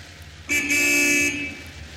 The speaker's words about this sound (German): Hup doch mal.